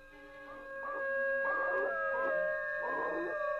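A dog howls while caught by the tail and struggling, crying out in a few wavering, rising and falling pulses over a sustained background tone.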